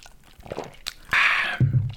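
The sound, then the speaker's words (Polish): Someone sips whisky and cola: one brief, wet slurping burst, followed by a low murmur. No one speaks. “Jakby co to piję właśnie e, sobie whisky z kolą.”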